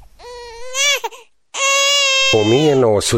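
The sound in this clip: A child cries loudly in two long, wailing bursts separated by a short pause, the sobbing pitch wavering and rising and falling throughout.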